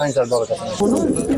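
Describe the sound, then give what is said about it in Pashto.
Pigeons cooing at a pigeon market in Afghanistan: soft, low, throaty coos repeat in short rolling phrases alongside nearby voices. “د کوترو ساتل د افغانستان په بیلابیلو سیمو کې له پخوانیو دودونو او سنتونو څخه دي.”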